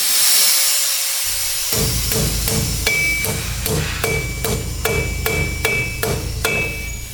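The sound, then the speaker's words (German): Hammering in a metal and electronics workshop where aluminium is bent, steel frames are bolted and antennas are built. Many regular, ringing hammer blows start after a quieter opening and repeat at a steady pace. “Es ist laut in der Werkstatt des Kollektivs DTL Comunicación Popular mitten in Buenos Aires. Aluminium wird gebogen, Stahlkonstruktionen verschraubt und Elektronikelemente gelötet.”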